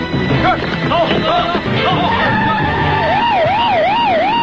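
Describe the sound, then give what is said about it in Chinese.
Several police car sirens sound loudly. Short, broken pitch sweeps come first, then overlapping wailing tones rise and fall in a steady, repeating warble. “有很多警车”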